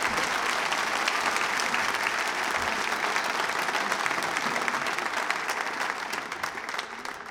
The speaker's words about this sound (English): Please welcome Cameron Grindle.